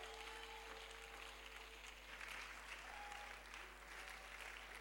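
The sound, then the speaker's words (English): A church audience applauds to welcome a reverend who is about to preach. The clapping is faint, dense and steady, holding an even level throughout. “With a standing ovation and a clap, let's welcome Reverend Bright Jemfi Kurantin as he brings the word of God to us.”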